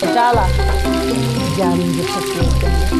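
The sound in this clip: Dough lumps stir-fried in butter give a constant bright sizzle and crackle, with a voice talking over the frying throughout.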